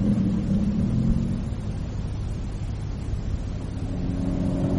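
A Mini car driving at high speed gives off a continuous low engine drone and road rumble, fairly faint and steady throughout with only slight swells in revs and no voices.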